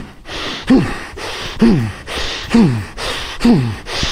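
Forceful breathing during a controlled punch demonstration: four sharp, voiced exhales at a steady pace, each carrying a short falling vocal tone.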